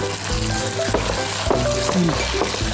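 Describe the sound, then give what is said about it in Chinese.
Eggs sizzle and crackle loudly as they are tossed in a wok with vinegar and garlic for a Tianjin dish, a continuous frying hiss with small stirring noises and no talk. “把鸡蛋放进去， 对，然后呢，出勺蒜。天津菜啊，讲究的就是出勺蒜，然后我们把它翻匀，”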